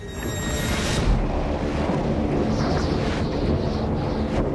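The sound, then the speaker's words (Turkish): Roaring blizzard wind in whiteout storm conditions out on ice. A loud, steady rush of gusting air continues with no break, and no one speaks. “Tam anlamıyla beyaz fırtına koşullarına giriyoruz.”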